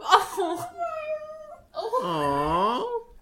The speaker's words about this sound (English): Thank you, Pepper. Why are you whining right now? You were whining before this moment, and now that we started, you're whining.